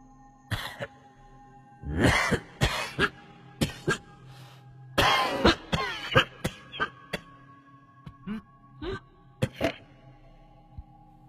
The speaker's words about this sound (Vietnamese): chợt có tiếng ho sồng sọc ở trong buồng đặt xác